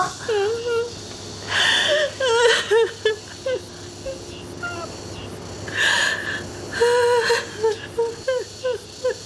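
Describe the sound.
A woman crying in loud bursts of wailing sobs and whimpering, breathy catches, with other voices talking around her.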